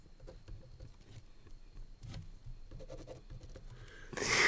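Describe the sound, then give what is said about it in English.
Pen strokes scratch faintly across paper in short, irregular bursts, followed by a sudden, much louder burst of noise at the very end. “What are you writing?”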